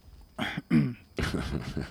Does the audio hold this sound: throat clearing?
yes